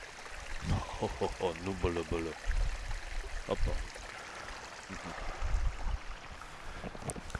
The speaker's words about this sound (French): Près d'un ruisseau, il me fait boire de l'eau fraîche.